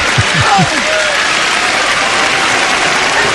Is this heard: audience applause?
yes